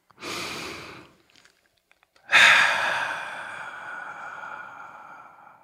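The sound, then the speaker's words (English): A deep breath: a shorter breathy rush, a brief pause, then a long, loud, breathy exhale that slowly fades, with no talk. “Now, if you're ready, let's take a deep breath.”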